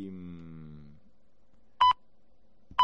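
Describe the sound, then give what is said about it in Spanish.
Hourly time-signal pips mark eight o'clock. A stretch of music fades out, and after a short silence two short, loud, mid-pitched beeps follow about a second apart, the second cut off at the end. “son puntualmente las 8, sonará en cualquier momento el pitido”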